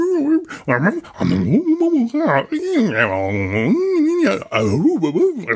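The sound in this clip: A dog makes talking-like noises: drawn-out whines and yowls that bend up and down in pitch in speech-like phrases, loud and almost continuous with short breaks.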